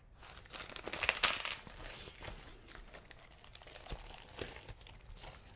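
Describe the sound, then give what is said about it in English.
Packing tape is pulled and torn off a parcel holding signed wrestling memorabilia. Continuous crinkling and ripping noise swells louder early on, then carries on unevenly with scattered sharper tears. “It's taking forever. So much tape on this.”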